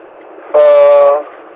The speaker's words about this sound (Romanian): Este tractat de o locomotivă diesel-hidraulică